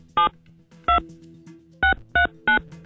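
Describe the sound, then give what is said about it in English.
Touch-tone telephone dialing as a number is keyed in: five short, clean beeps in uneven rhythm, one alone, then a lone tone, then three quick ones close together near the end, with a faint hum between them. “Let's dial her up.”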